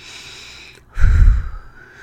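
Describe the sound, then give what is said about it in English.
A single deep breath: a short hush of air, then a loud, breathy rush that swells and fades over about a second, heard on its own. “And so we can take a deep breath”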